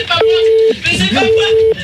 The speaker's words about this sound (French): tu peux arrêter la sonnerie